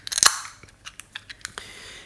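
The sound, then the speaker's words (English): A can of juicy beer brewed with London 3 yeast is cracked open: a sharp hissing pop, then several small clicks and crackles. “So I'm going to crack this open. I'm going to taste it.”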